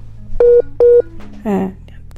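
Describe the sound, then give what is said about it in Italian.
A telephone busy tone sounds after a call drops: two loud, steady mid-pitched beeps, followed by a voice that starts to speak. “è caduta la linea, però tentiamo di richiamarlo”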